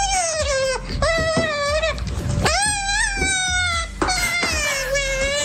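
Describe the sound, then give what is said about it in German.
Eurasian otter pups beg their mother for food with high, whining squeals. The wavering, harmonic-rich cries run almost continuously, with only a few brief breaks. “Weil Fischotter nicht nur super süß aussehen, sondern noch süßer klingen. Zum Beispiel, wenn sie von Mama Futter wollen.”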